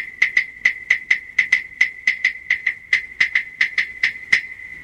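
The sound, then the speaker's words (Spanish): Claves knocked together in a quick, even pulse of many crisp, bright wooden clicks, each with a short, pitched ring, played alone at a moderate level. “Así suenan las claves.”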